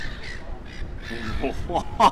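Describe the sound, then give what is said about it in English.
A flock of seagulls calls out, giving a few harsh squawks that grow louder toward the end over a rushing background of wind noise. “we've got a pack of seagulls flocking.”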